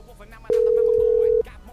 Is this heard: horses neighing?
no

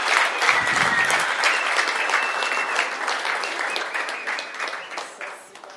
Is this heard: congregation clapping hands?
yes

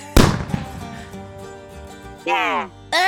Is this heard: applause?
no

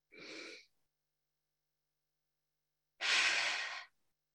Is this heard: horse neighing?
no

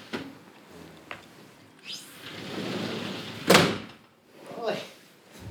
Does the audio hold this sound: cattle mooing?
no

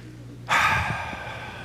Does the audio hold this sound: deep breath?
yes

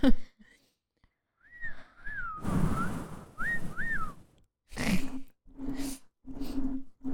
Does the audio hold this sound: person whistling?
yes

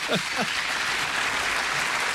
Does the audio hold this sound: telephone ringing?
no

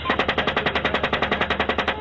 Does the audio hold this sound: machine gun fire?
yes

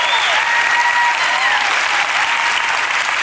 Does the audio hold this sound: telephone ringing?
no

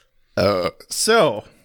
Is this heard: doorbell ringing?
no

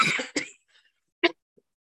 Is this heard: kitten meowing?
no

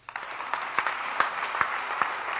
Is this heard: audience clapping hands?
yes

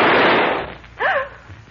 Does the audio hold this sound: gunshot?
yes

